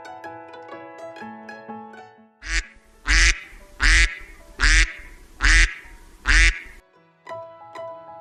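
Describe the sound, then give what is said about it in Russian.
Duck quacking: six loud, nasal quacks in an even rhythm, between passages of light tuneful music. “Уточка говорит кря.”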